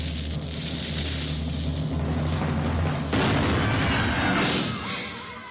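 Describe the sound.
A cannon-firing sound effect: dense rumbling noise that erupts into a louder, broad blast midway, sustains briefly, then fades.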